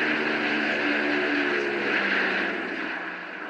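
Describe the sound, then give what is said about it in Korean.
Propeller engines of C-54 Skymaster transport planes flying overhead near Gimpo Airport in 1950 make a loud, steady, broad roar. It holds even throughout and eases off slightly toward the end. “멀리 공중에서 웅장한 프로펠러 소리가 들리기 시작했습니다.”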